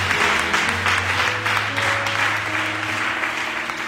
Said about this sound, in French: Que quelqu'un dise Amen à la gloire. Acclame fortement le Seigneur.